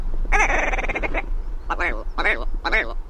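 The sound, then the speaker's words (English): A pheasant-type bird of the northern hemisphere calls on its own with harsh, raspy sounds. One long rattling call comes first, followed by three shorter croaking bursts, all loud. “which is a type of pheasant found across the northern hemisphere. These birds are extremely vocal and make a variety of noises when they're courting mates, fighting off rivals, or alerting others about nearby predators.”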